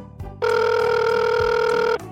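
A telephone rings unanswered: one loud, sustained, steady-pitched electronic ring lasting about a second and a half, then stops.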